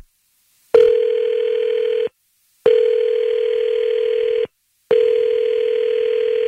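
A telephone call ringing out after dialing: three long, steady buzzing tones, each separated by a short silence, loud and alone with no voices.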